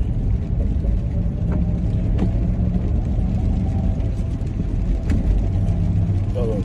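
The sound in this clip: Road traffic rumble as cars drive hard past, a dense, loud and continuous low roar with a few brief surges but no single clear pass-by.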